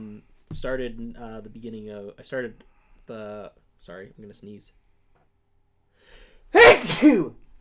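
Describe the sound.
A single sharp sneeze bursts out near the end, following a stretch of conversation with pauses between phrases.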